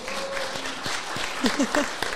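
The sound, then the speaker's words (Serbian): Audience applause at a live show: a soft, continuous patter of clapping, with brief voices rising through it near the end. “Molim vas, jedan aplauz za Vladu.”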